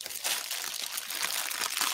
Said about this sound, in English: That's like a bag of crisps. Oh. It is a bag of crisps.